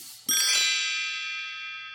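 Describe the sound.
An ascending two-note chime, like a page-turn signal, rings out bright and clear after a quiet start, then sustains and slowly fades away.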